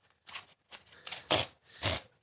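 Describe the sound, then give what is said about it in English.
Paper rustling and crinkling as a package is unboxed and an envelope holding an A5 book is opened, with several short, bright bursts of crackle separated by brief pauses, moderately loud and alone. “And now, for your listening pleasure, another little cheeky unboxing.”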